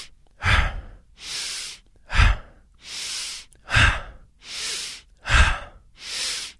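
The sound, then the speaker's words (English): Rapid, forceful breathing, in through the nose and out through the mouth, runs as four even cycles. Rougher, breathy bursts alternate with smoother airy hisses, loud and with no talking. “I'm going to essentially demonstrate now. So it's inhale, exhale through the mouth. I am inhaling through the nose.”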